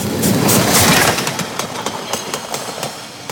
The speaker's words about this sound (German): Aus der Südbahnhalle braust er eben hinzu. Da fahren die Leute nach Baden.